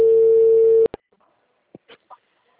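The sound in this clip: A telephone call tone, one steady low tone lasting under a second that cuts off abruptly, followed by a few clicks and faint short sounds on the line.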